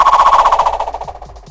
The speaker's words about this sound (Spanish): una pantalla explotó. Y todo a su alrededor comenzó a revolverse.